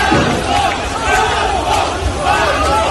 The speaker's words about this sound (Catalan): Aquest és el so del carrer a Rostov del Don davant l'arribada de la policia russa un cop havien marxat els mercenaris.